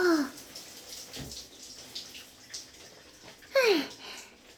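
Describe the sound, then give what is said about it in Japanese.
Water rinses shampoo foam off hair with a soft, steady hiss and gentle splashing. Brief squeaky tones that slide downward in pitch cut in near the start and again near the end. “ぬるぬると泡、きれいに落ちたよ。”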